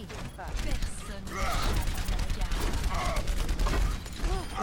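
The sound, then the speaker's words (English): Assault rifle fire in the video game Overwatch: a dense, steady clatter of rapid shots blended with mechanical game effects, loud and continuous throughout. “I got him with just my assault rifle.”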